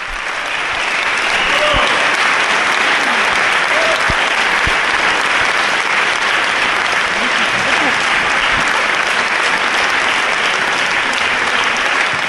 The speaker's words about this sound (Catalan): en l'església de Sant Miquel de Cuixà, plena vessar, el concert ha estat un èxit que s'ha acabat per les aclamacions del públic.